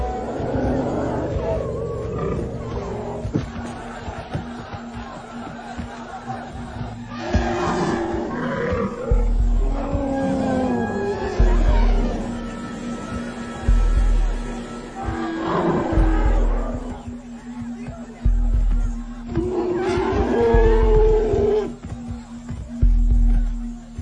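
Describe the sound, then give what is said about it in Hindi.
Elephants arriving, letting out deep roaring rumbles and harmonic calls several times in succession over a low, steady hum. “हाथी आ गए, चलिए चलिए। वो पहले आपसे नाराज है, वो पहले आपसे नाराज है, चलिए यहाँ से।”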